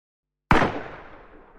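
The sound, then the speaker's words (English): A single gunshot fired inside a house: one sudden, loud, sharp crack after silence, trailing into a long, fading tail with no other sounds. “That shot came from inside the house.”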